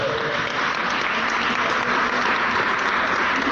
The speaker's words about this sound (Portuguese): Saiu agora! Saiu a hérnia! Está curada! Pode bater palmas para a glória de